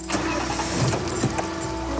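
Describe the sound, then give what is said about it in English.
An Audi car reverses out of a driveway, its engine running with a steady, fairly loud hum that holds evenly throughout. “An agitated Brian reverses his Audi out of the driveway.”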